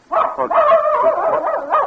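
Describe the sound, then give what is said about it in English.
A female dog barks and yelps: high, tonal, whining cries run almost without pause for about two seconds, loud and alone with no talk. “Well, there you are, Queenie. I wondered what had happened to you. Been following me around all night. Miss Benton's dog.”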